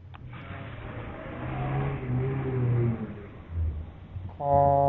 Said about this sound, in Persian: چه صدای ماشینی میاد.